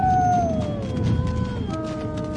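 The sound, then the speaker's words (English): A distant wolf howls from a mountain glen. A long, sustained tone with faint harmonics glides slowly downward in pitch over a low rumbling background, then a second drawn-out note carries on to the end. “He twitched his ear toward a distant wolf howl from up in a mountain glen.”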